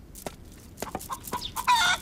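Chickens cluck in a coop in a farm courtyard, a faint scatter of short, irregular clucks followed by a louder, denser burst of higher calls at the end.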